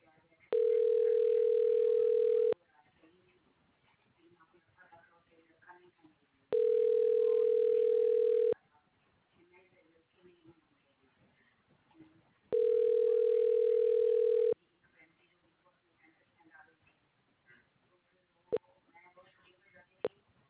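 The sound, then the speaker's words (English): Telephone ringback tone on a call being forwarded to a ShoreTel voicemail system: three steady two-second tones spaced about four seconds apart, with faint voices murmuring between them and a couple of sharp clicks near the end. “Your call is being forwarded to a ShoreTel voicemail system.”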